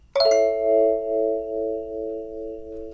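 A chord on a pentatonic sansula with a wah-wah effect made by lifting the instrument to let air out. A quick double strike gives way to sustained ringing tones that swell and dip in slow waves.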